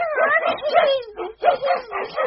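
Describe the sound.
A puppy yaps and whimpers in a continuous run of high, wavering, whiny yelps with sliding pitch, loud and unbroken except for one brief dip.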